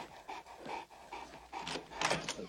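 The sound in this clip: An injured, neglected dog that needed stitches pants heavily, quick rhythmic bursts of breath rising and falling in short clusters, fairly soft and alone with no talk.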